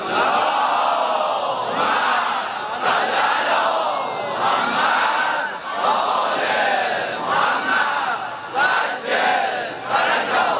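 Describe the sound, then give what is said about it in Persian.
A large, mostly young crowd chants a loud salawat prayer in unison, their many voices merging into sustained, rhythmic phrases that rise and fall steadily throughout. “به محمد و آلش، یه صلوات بلند با وعجل فرجام”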